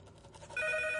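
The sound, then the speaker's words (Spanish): A telephone rings in a tense crime-drama scene, starting about halfway through as one sudden burst of loud, steady electronic ringing tones that hold to the end. “Trata de contestar, pero Erling descuelga primero.”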